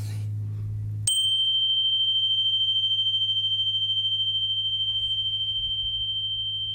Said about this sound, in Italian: questa qui si chiama Energy Bar e ha una frequenza di 528 Hz, altamente curativa.